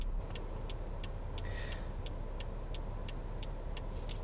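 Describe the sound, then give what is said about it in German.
Steady low road rumble fills the inside of a car while driving, with a regular series of light, even clicks ticking through it at a quick, constant pace. “Ich befinde mich gerade im Fahrzeug meiner Holden.”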